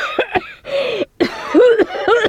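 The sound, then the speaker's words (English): A person's short, sharp coughs, a few quick bursts at the start, followed by throaty voiced sounds that rise and fall in pitch, loud and abrupt. “What can I get you for your cough? What cough? That cough.”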